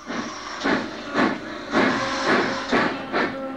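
A small steam locomotive starting to move on its own, heard as a steady, rhythmic run of loud hissing steam chuffs over a continuous background hiss, with no talk.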